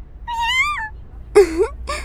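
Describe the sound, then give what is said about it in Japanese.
A cat meowing: three high, tonal meows, a longer, wavering one first, then a shorter call and a brief final one, with no talk over them. “猫さん、おいで。”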